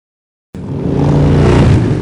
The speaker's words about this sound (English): Now it's time to try out the CMX 1100 Rebel by Honda.